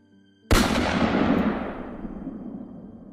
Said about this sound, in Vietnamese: Tiếng súng vang lên làm cho mọi người xung quanh giật bắn mình, dù đã chuẩn bị cho âm thanh ấy từ trước.